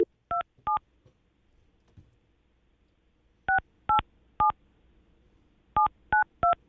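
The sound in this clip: Telephone keypad tones dialing a number: eight short, clear two-note beeps, a pair followed by two quick groups of three, with quiet gaps between groups.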